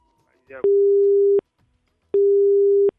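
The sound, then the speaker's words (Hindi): Telephone busy tone after a call was cut off: two long, steady, low buzzing beeps separated by a short gap, with a brief voice fragment just before the first beep. “इनका phone जो है वो cut चुका है”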